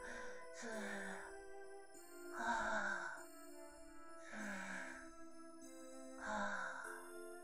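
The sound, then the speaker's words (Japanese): Slow deep breathing from a woman calming herself: four long, soft, breathy sighs at an even pace, each swelling and fading, with faint music underneath. “深呼吸と。”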